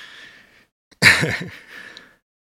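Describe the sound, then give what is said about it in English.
Heavy breathing from someone catching their breath after climbing a staircase: a breathy exhale, then a loud voiced gasping sigh, and finally a softer trailing breath. “Whew. This is harder than I anticipated. I'm going to need to catch my breath for 5 seconds.”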